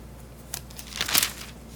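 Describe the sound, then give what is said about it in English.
Pages of a Bible being turned: a brief papery flick, then a longer crinkling rustle as more pages flip, soft and with no voices. “Don't you love how you just turning the pages of this? 1 Peter chapter 2.”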